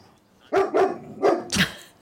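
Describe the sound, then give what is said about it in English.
A dog barks four times, loud and sharp, in two quick pairs within about a second, alone without talk. “I have no idea why he started barking.”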